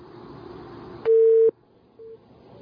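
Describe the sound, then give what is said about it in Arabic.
A telephone busy tone after a call disconnects: a clear steady beep of about half a second, a pause, then a second shorter beep, following a stretch of faint line noise. “قطع اتصال.”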